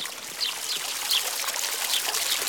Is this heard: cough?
no